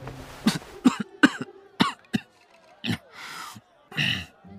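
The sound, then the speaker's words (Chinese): Coughing from someone who has choked on food: a run of several sharp, abrupt coughs, followed by a few longer, breathier rasping bursts, with no talk over them. “洛灵芝不小心被呛到，忍不住咳了一声。”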